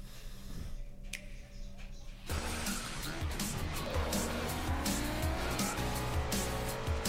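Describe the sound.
Racing cars roar in a Nintendo Switch racing game trailer: a quiet opening gives way after about two seconds to loud, dense engine noise with squealing tires and skids, continuing steadily to the end.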